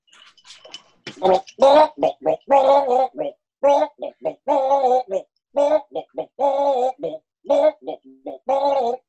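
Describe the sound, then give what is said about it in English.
A human voice imitates a bison gargling, producing a long run of short, wet, bubbling vocal bursts that are choppy and rhythmic and fairly loud. “Would you like to hear a bison gargle?”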